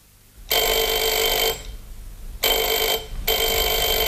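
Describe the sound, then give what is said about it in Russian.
A telephone ringing at night, with three loud bursts of bright electric ringing separated by short silent gaps. The last burst is cut off at the end, and no voices are heard. “Ночью меня разбудил телефон.”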